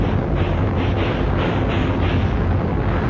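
A ship's cannon fires: a heavy, loud rumbling roar that holds steady for the whole stretch, with no separate shots standing out.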